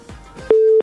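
A busy tone sounds after a listener's phone call from Khost to a radio show drops. A single steady, mid-pitched beep lasts about a third of a second after faint low noise.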